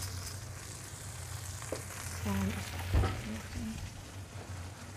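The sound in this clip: Soft sizzling of sausages frying in a pan with fennel and cauliflower, seasoned with pepper and salt; a quiet, steady hiss with a brief knock near the middle.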